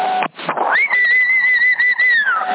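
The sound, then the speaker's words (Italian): A single sustained whistle over a CB radio channel: a steady high tone held for about two seconds, rising briefly at the start and dipping at the end. It is narrow and radio-filtered, over a bed of static hiss. “Chi è che fischia? Avanti.”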